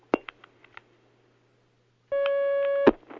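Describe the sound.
Telephone line tones sound as a caller's call connects: a few short dialing beeps, then a pause of silence, then a steady tone lasting under a second that ends in a click.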